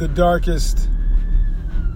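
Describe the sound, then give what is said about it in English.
An ambulance siren comes through as a faint, thin, steady wailing tone under low background rumble. It follows a brief burst of talk at the start. “So that was an ambulance, by the way, in case you want to play that.”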